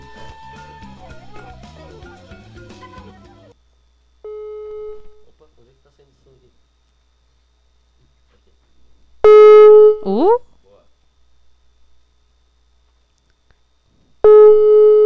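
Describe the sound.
A telephone rings out while waiting for an answer, its steady tone repeating a few times with long gaps between. People talk briefly before the rings, and a voice exclaims over one of them.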